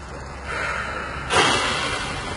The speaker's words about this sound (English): I want you to close your eyes and breathe it all out. Go on.